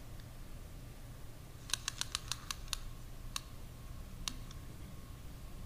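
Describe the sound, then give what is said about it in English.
A tape measure is being played with, making faint, sharp clicks. A quick run of clicks is followed by a few more spaced-out ones. “It's a tape measure if you can't tell, or I don't, you know, online. I don't know if you know that. I like to play with these.”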